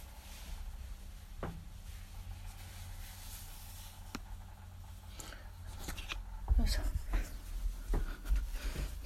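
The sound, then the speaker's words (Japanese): Fabric rustles and brushes as a jacket is put on before a walk on a cold day. The soft swishing comes with a few scattered clicks and grows louder and busier toward the end. “ちょっと寒いのでね、ちゃんと上着を、あれどこ行った、上着を着て、”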